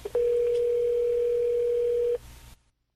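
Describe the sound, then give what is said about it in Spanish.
Steady telephone dial tone as a surprise call is being placed: a short blip, then one even, unwavering tone held for about two seconds before it cuts off, leaving a faint hiss and then silence, with no talk. “Vamos a tratar de hacer esta llamada sorpresa. A ver si nos sale. Marca ahí, por favor. Marca ahí.”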